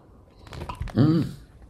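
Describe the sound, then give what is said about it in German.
A sip of coffee taken by someone between remarks: soft mouth and slurping noises, then a short voiced hum, all fairly quiet. “Ich trinke mal einen Schluck Kaffee.”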